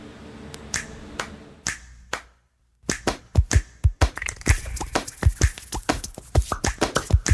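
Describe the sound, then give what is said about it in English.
Music made entirely from hand sounds: many crisp finger snaps mixed with taps, slaps and claps, played in a tight, busy rhythm with a brief silent gap early on, and no voices. “Hands can do incredible things. They made every sound in this piece of music.”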